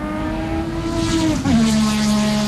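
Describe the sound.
Race car engines revving near a motor racing circuit: a loud, continuous buzzing engine drone that dips and shifts in pitch briefly midway, then holds steady again.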